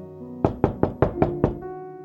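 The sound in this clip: Knocking on a door: six evenly spaced, firm knocks in a steady rhythm over a soft, sustained musical tone.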